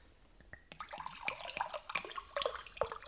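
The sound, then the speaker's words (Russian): Water poured from a carafe, heard alone as a run of bright gurgling splashes and drips, with quick pitch glides as the liquid falls and fills. “Налейте воду из графина.”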